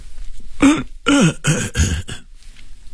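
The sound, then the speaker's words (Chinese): An elderly man coughs and clears his throat in a few rough, voiced bursts close together, loud and alone with no speech around them. “张栓柱咳了一声”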